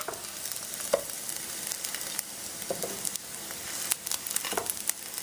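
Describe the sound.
Food fries in a pan with a soft, continuous sizzle broken by scattered small pops and crackles, fairly faint throughout and without talk.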